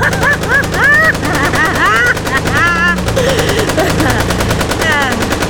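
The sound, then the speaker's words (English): Rapid automatic fire from a Tommy gun loaded with silver-plated bullets, shot from a car, a continuous loud rattle of closely spaced shots with high, warbling cries mixed in throughout. “That Tommy gun you have in your glove compartment is loaded with silver-plated bullets, baby.”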